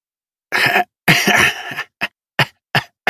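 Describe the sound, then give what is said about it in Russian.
A man coughing into his palm, with pain in his lungs: two longer, rough, harsh bursts followed by four short, sharp coughs spaced evenly apart, loud and with no speech. “Я закашлялся и закрыл ладонью рот.”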